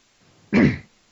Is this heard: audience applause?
no

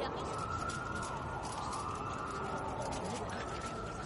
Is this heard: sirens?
yes

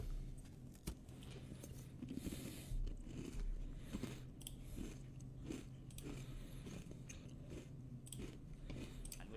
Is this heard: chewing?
yes

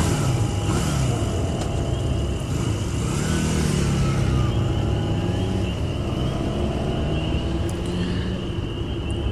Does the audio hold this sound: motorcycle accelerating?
yes

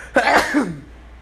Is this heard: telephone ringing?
no

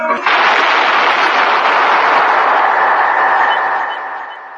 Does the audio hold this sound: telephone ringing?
no

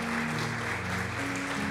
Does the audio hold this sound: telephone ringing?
no

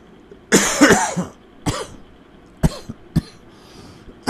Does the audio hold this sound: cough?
yes

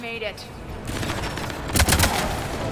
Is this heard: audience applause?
no

